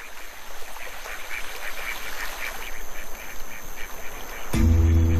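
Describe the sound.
A coot calls in a quick run of short, repeated notes, each call brief and fairly bright. A loud, rough burst of noise cuts in near the end and drowns out the calls.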